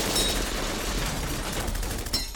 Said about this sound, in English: they unholster their weapons and unleash a volley of 200 bullets.